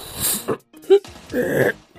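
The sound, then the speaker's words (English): A voice imitates a dragon choking and struggling for breath: a few rough, wheezing, snorting bursts of breath, with a raspy strained gasp near the end. “The fire suddenly died down as the dragon was struggling for breath.”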